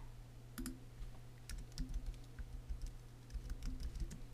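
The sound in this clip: Someone types a word on a computer keyboard: a short run of faint, irregular key clicks over a steady low hum.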